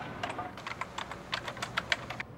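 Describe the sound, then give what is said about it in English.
Typing on a computer keyboard: a quick, uneven run of many light, clicky keystrokes, fairly faint, with no voices. “He continues to type.”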